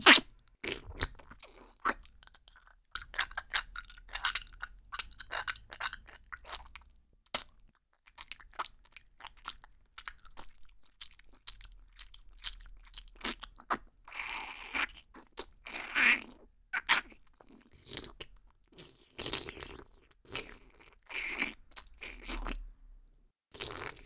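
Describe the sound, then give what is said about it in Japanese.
Crunchy eating and chewing, with many sharp, irregular crunches and bites spread over the whole stretch, fairly quiet and close, with a brief lull early on before the chewing picks up again; no talking. “全部食べ尽くしてあげる。”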